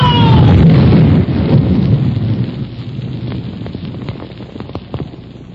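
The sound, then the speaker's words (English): A bridge blown up with dynamite in a radio drama: a loud, deep explosive blast that rolls into rumbling, then breaks into scattered crackling debris that fades away. “Blow it, Anselmo! Blow the bridge!”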